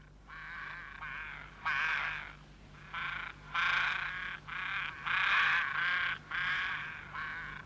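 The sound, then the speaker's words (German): Ravens cawing outdoors in a long run of harsh, raspy calls. Each short burst comes in quick succession with brief gaps, and the loudness stays fairly even. No voices. “Oder stören dich die Raben?”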